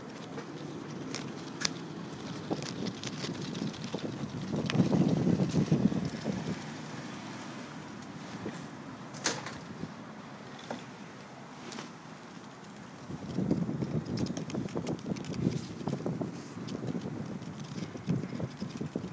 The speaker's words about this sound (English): Can you hear the sound of these leaves? Can you hear the sound of that?